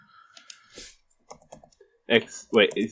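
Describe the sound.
Scattered light clicks of computer keyboard typing, a few quick keystrokes, followed by a voice speaking over the final second.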